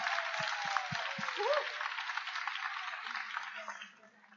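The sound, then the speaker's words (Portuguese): Audience applause at a national spiritist gathering: a steady, broad wash of clapping hands lasting about four seconds before fading, with a voice briefly heard over the start. “Merece 1 milhão de palmas.”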